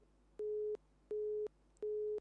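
A telephone tone on a call into a phone-in line: three evenly spaced, steady beeps of the same mid pitch, each lasting about a third of a second, with a faint low hum between them.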